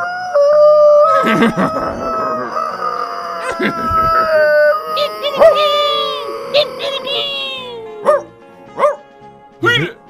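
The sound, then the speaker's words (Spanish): Coyotes howl in several overlapping, wavering, gliding howls mixed with yips, loud at first. The howls thin out into a few short separate yelps toward the end. “Nadie sabe por qué los coyotes volvieron a aullar.”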